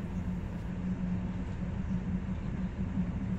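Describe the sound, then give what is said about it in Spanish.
An old, run-down train rattles along the track at low speed near Córdoba, Spain, producing a steady, low rumbling drone with continuous clatter and no voices. “Todo en general tiene pinta de estar en bastante mal estado, ya que el tren traquetea demasiado pese a ir a velocidades tan bajas”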